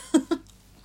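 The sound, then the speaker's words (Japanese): Two quick crunches of someone biting into crunchy daikon radish while eating, short and close together, followed by quiet. “こうやって大根とか箸休めで食べないと”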